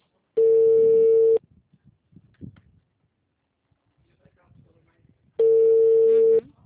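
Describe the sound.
Two long, steady telephone tones, each about a second, are separated by a gap of several seconds while a call to an unresponsive customer is dialed. The tones are loud and buzzy, with faint rustling and handling noise between them.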